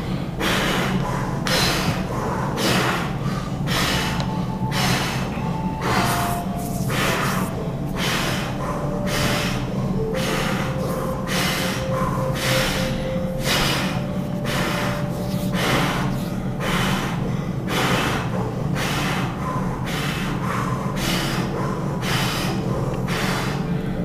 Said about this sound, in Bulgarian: Кундалини дишане. Дишане на потенциала. Бастрика.